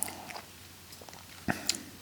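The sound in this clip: Chewing on a snack with a chocolate component: a few soft, moist crunching bites separated by quiet stretches, with a sharper pair of bites near the end.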